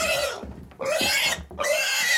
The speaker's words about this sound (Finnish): joku pitää sikaa kylpyammeessa.